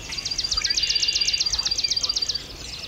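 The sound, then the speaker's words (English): Spring birdsong from a mix of species including cardinal, gnatcatcher, vireo, red-winged blackbird, sparrow, warbler and grackle, led by a loud, rapid, high trill of many even notes over fainter calls. “We're hearing northern cardinal, blue-gray gnatcatcher, warbling vireo, red-winged blackbird, swamp sparrow, yellow warbler, common grackle, catbird,”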